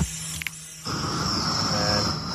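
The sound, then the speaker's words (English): Propane gas torch used to heat a sculpture during conservation: a couple of sharp clicks, then an abrupt steady hiss that carries on alone at an even level. “It's the sound of propane.”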